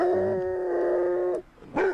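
A dog from a kennel gives a long, drawn-out whining howl, then a brief pause and a short sharp yelp.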